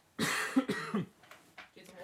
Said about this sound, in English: Excuse me, guys. I've got a frog in my throat.